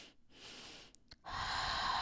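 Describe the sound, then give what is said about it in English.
Calming breathing exercise: a double inhale followed by an exhale out the mouth. A soft airy breath, two short quick sniffs, then a longer, louder rushing breath to the end. No talking. “you don't want to breathe in and breathe out, but you want to do two inhales and exhales”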